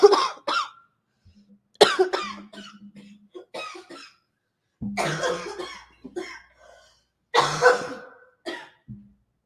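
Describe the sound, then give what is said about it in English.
A woman's asthmatic cough comes as many harsh, hacking coughs in irregular clusters separated by short pauses, loud and without any talk. “can't get rid of that cough. It's asthmatic.”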